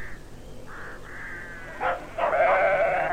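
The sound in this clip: Lambs bleating in a few wavering, nasal calls over a low steady hiss, the last calls louder and fuller than the first.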